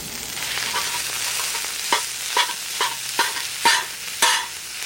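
Minced meat and mushrooms sizzle on a griddle at a camp, following onion and garlic, with a steady hiss of frying broken by several sharp scraping strokes as the food is stirred across the hot surface in the second half.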